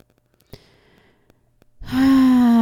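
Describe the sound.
A loud voiced sighing exhale during a seated forward-fold yoga stretch. It is a sustained breathy tone that slides slightly lower in pitch, with only faint, scattered quiet sounds before it.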